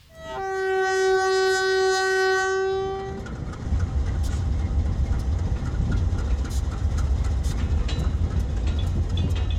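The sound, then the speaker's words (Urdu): Freight train running between Pakistan and Iran: a long, steady horn blast for about three seconds, then a continuous low rumble and clatter of rolling wagons to the end. “یہ train کوئی عام train نہیں بلکہ پاکستان اور ایران کے درمیان چلنے والی فریٹ ٹرین ہے۔”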